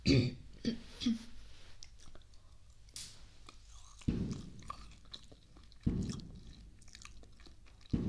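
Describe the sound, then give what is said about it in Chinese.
Soft chewing and biting on freshly cut dragon fruit: faint wet bites and crunches come in a few separate bursts with quieter mouth sounds between them. No one speaks. “我刚切的火龙果，吃吗？不吃正好，不吃我吃了啊。”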